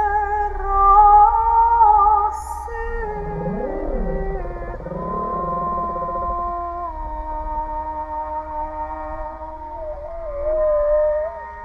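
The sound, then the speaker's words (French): Humpback whale call picked up by a hydrophone, answering music played through an underwater speaker from a boat's side; sustained tonal notes run throughout while swooping, moaning calls rise and fall through the middle. “Et au même moment, la réponse d'une baleine à bosse captée dans l'hydrophone.”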